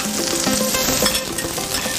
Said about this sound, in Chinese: 煎的时候刮铲一定用力，就是贴着那个铁板用力的铲上来，它才不会粘锅。